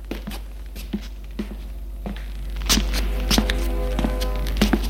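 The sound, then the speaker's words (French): Footsteps climb a staircase toward the second floor, a long series of regular, soft thuds and taps that grows somewhat louder partway through, over a steady low hum. “Elle prend les escaliers pour aller au deuxième étage.”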